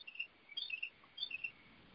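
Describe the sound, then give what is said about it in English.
Faint, high-pitched bird chirps drifting in through an open house door, coming in a few short trilling bursts over a low, quiet background. “You could hear the birds in your house. Yeah, I've got my door open here.”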